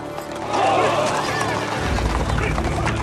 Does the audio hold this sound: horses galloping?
yes

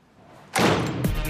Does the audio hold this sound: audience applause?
no

